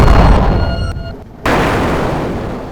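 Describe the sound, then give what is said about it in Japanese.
A huge blast explosion from a flare magic attack in a fantasy battle: a loud roaring burst slowly fades and briefly dips, then a second sharp roaring blast hits and sustains to the end. “爆風ギガフレア。”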